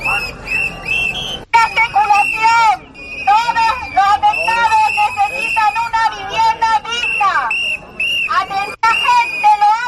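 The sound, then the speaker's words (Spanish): Shrill whistles blow again and again over a crowd at a street protest by residents affected by a volcanic eruption in Los Llanos. The whistles and voices stay loud and nearly continuous, with only brief gaps. “Este es el sonido de esa manifestación.”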